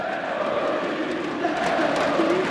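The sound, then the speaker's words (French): Crowd of about 15,000 chanting at the League of Legends World Championship final in Paris-Bercy, a dense, steady wall of voices holding sustained tones throughout. “Ce que vous entendez, c'est la finale des championnats du monde de League of Legends. Un jeu vidéo. 15 000 personnes se pressent dans les gradins de Paris-Bercy, chauffés à blanc.”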